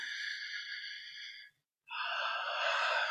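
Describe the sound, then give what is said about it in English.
A deep breath taken during a guided tapping exercise: a long, airy inhale, a brief silent pause, then an equally long, breathy exhale. “take a nice big deep breath”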